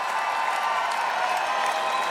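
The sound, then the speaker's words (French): Some 40,000 fans sing together at an outdoor rock concert in the Parc de Saint-Cloud, a dense, sustained wash of voices with a faint tonal hum running through it. “je peux vous dire que les 40 000 personnes que vous entendez là qui chantent”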